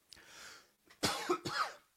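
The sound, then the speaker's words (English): A person coughs: a soft, breathy throat sound comes first, then a quick run of a few harsh, louder coughs, with no talking. “I'm going to have to edit out that cough.”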